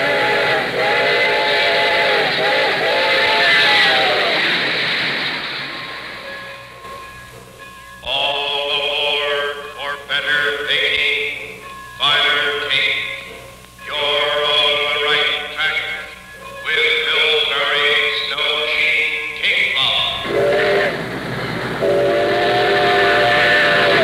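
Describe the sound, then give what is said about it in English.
A steam train sounds several long, chord-like whistle blasts over a continuous rumble of wheels on rails, heading toward a big-city terminal. The loud whistle swells and breaks off between blasts while the low rumble carries on underneath. “The bullet seeks its target. Shining rails in every part of our great country are aimed at Grand Central Station, heart of the nation's greatest city.”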